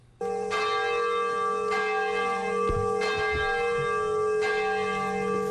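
A large bell rings at the Nagasaki atomic bombing memorial ceremony. It is struck a few times, and each blow leaves a long, steady, humming resonance that rings on between strikes.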